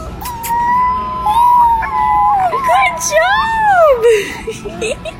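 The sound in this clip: A puppy howls and whines in long, wavering cries that rise and fall in pitch. They run almost without a break for about five seconds, with a few short yelps near the end.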